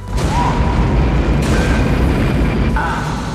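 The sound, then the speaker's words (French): Rocket engine ignition at a launch: a loud, continuous deep roar and rumble that fills the whole clip, with a faint steady tone riding above it. “7, 6, départ séquence mise à feu.”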